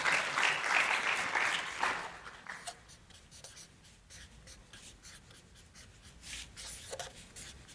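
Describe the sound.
A marker draws a slide by hand, giving loud, scratchy, squeaking strokes in quick succession for about two seconds, then fainter, scattered strokes and taps with pauses between them.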